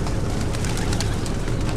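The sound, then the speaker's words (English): Drugged pigeons waking up and cooing in the back of a car, with soft repeated coos over a steady, dense rumble of background noise. “I dosed some pigeons and I stuffed them in the back. They should be waking up any moment. Oh, there they go.”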